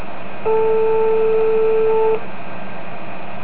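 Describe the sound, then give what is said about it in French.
A telephone tone sounds as a call is placed to a television station: one steady, mid-pitched electronic tone lasting under two seconds, heard alone against faint hiss. “attention, on appelle TF1, là.”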